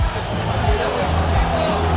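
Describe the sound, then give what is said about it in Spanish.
Deportivo de La Coruña supporters cheering at the final whistle of a match against Valladolid, a dense, sustained crowd roar with a low rumble underneath and scattered whoops. “Final, escuchamos al público gallego.”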